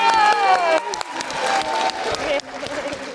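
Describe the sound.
Audience applause at the close of a live stage Q&A show: dense, sustained clapping and cheering throughout, with voices over it.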